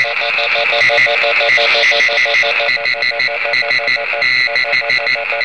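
Morse-like radio interference from a receiver fed by a dipole antenna installed in an attic: many rapid, evenly keyed tone pulses with a buzzy, hissing edge, loud and continuous throughout, with no voices.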